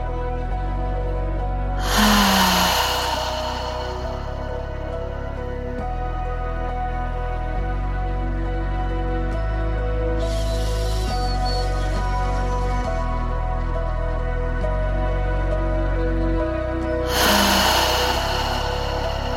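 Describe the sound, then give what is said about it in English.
Deep open-mouthed breaths with audible exhales during a guided meditation, a few slow breathy rushes spaced widely apart over a steady low drone. “Take 3 deep breaths with an open mouth, audible exhale.”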